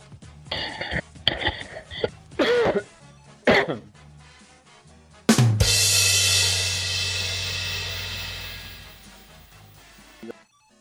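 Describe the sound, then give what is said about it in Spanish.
Coughing and throat clearing from someone with a head cold who is prone to coughing: a few short, harsh bursts spread over the first few seconds, followed by a long, sustained noisy stretch. “Porque te veo ahí con tos”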